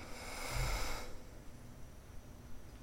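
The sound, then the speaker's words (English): A soft, airy exhale through the right nostril during alternate nostril breathing, a steady hiss lasting about a second before fading to near silence. “Close off the left side with pinky and ring. Exhale out the right.”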